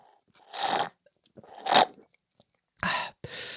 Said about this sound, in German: Oh, erstmal nochmal einen Schluck Smoothie, Alter.